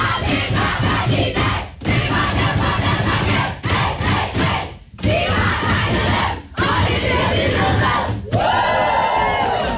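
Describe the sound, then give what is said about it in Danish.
The Danish women's national football team celebrates in the locker room after beating Serbia 4-1. Loud shouting and cheering come in several bursts separated by short pauses, ending on a high, sustained whoop. “Det er lyden af de danske fodboldskvinder, det danske landshold for kvindefodbold, som altså var ret begejstret i omklædningsrummet i går, efter de havde slået Serbien”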